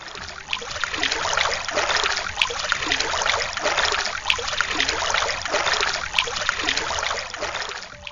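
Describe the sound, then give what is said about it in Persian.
Flowing river water rushes and trickles steadily, a dense, even wash of sound that swells gently at regular intervals. No voices are heard. “چیه؟ صدای آب دیگه. لابد انتظار داشتی رودخونه حرف بزنه.”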